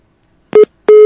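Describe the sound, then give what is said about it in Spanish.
A phone line busy tone after a dropped call: two loud, clean electronic beeps at a steady mid pitch, separated by a short silence, the second continuing to the end. “Se cortó, se perdió la llamada completamente.”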